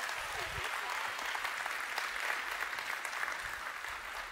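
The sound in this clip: Applause for a family during a church service: steady, dense clapping from a crowd that holds at an even level for the whole four seconds.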